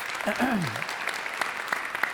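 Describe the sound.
Applause from a church audience welcoming a guest to the stage: steady, dense clapping with a voice speaking over it at the start.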